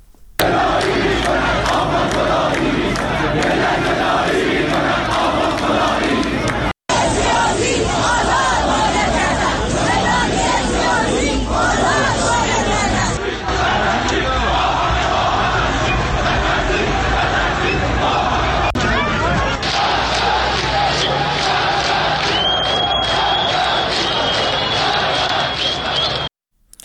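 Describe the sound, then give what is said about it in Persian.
A protest crowd of several hundred people chants increasingly radical slogans at a rally against Hassan Rouhani. The dense, loud mass of shouting voices runs continuously, broken only by a brief cut. “ولی همینجور که ساعت میره جلوتر، تعداد تجمع کنندگان زیادتر میشه، بوده چند صد نفر میشه و شعارها هم رادیکالتر. بعضی از اینا گوش میکنیم.”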